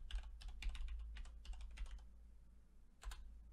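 Typing on a computer keyboard: quick, faint clusters of clicking keystrokes for about two seconds, a short pause, then one more brief burst, all over a steady low electrical hum.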